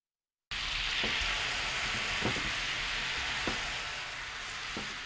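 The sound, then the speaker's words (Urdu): Soy sauce, sugar and water sizzle in a frying pan over medium heat as the sauce thickens. After a brief silence comes a steady, fairly quiet hiss with a few soft pops scattered through it. “Frying pan کو دھو کر اس میں soya sauce, چینی اور پانی ڈال کر ملائیے۔ اب فرائنگ پین کو درمیانی آنچ پر رکھ کر سوس کو گاڑھا کر لیجیے۔”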